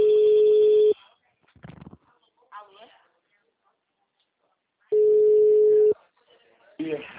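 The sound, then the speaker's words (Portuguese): A telephone rings with an incoming call, giving two long, steady electronic tones of about a second each, roughly four seconds apart, with short bursts of speech in the quiet between them. “Ela tá me ligando.”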